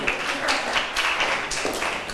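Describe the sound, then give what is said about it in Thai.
Students in a classroom applaud a group of classmates after their presentation, a steady, dense clapping of many hands at moderate loudness that runs throughout without talk. “ขอบคุณกลุ่มที่3ปรบมือให้เพื่อนหน่อยค่ะ”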